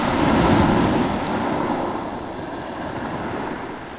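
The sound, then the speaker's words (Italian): Sea waves surge and wash in a broad, rushing roar mixed with gusty wind noise, loudest at first and then easing slightly into a steady churn. “Onde.”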